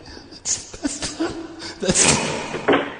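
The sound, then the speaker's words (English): Banging on a wall: a few dull, irregular thuds, fairly loud against a noisy background. “Jill says to bang on the wall. Thanks, Jill. Okay, just a sec. Let me go back in and bang on the wall.”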